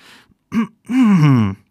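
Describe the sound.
A reader's voice imitates a throat clearing in a children's story, with a breathy onset, then a short voiced grunt and a longer hum that falls in pitch, loud and close.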